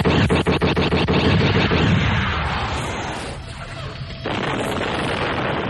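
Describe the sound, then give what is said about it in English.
Sci-fi sound effects of starfighter laser fire and an exploding enemy craft in a space battle: a rapid stutter of sharp repeated pulses runs into a loud, dense roaring blast that slowly thins out. “The skip detonated, hiding Mara's X-Wing from sight for a moment. And Luke fired a laser stutter burst at the starboard skip's underside.”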